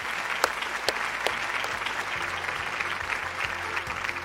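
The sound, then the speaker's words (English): Audience applause thanks a panel at the close of a debate on plastic pollution in the National Trust Theatre at Countryfile Live 2019. The clapping is steady and dense throughout, with a few sharper individual claps standing out and no voices. “Thank you to the audience. And please put your hands together to thank the panel.”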